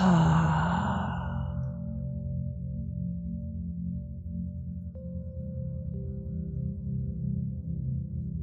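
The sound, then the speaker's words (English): An audible breath pushed out through the mouth during a breathing exercise, a breathy rush at the very start that fades away within about a second and a half, followed by a steady, sustained low musical drone. “Inhaling through the nose exhaling audibly through the mouth.”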